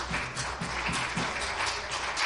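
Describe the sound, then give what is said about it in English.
A church audience claps hands in praise, many hands striking in a steady rhythm that blends into continuous applause throughout. “Give Jesus one more hand clap of praise”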